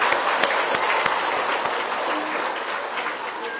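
An audience at a Buddhist gathering applauds the children on International Children's Day, with steady, dense clapping that holds at an even loudness throughout.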